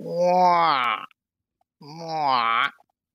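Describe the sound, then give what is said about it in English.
Baby hippopotamus asking for food: two drawn-out, moaning, harmonic-rich calls, each about a second long, with a brief silence between them. “That is a baby hippopotamus, a baby, asking for food.”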